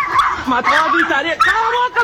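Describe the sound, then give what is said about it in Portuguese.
Dogs yip and bark in a scuffle as a neighbour's dog goes after another dog, the sharp canine cries coming in quick bursts under a person talking throughout. “meu cachorro tá numa briga aqui, que Deus olhe. Meu Deus do céu. Tem um outro cachorro do vizinho aqui que quer pegar ela.”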